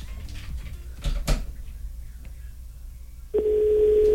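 A telephone call being placed: a few soft clicks and knocks, then a steady, unbroken mid-pitched line tone that starts abruptly and holds loud to the end.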